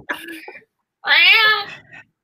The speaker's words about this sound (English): I'm sorry, my cat is very vocal.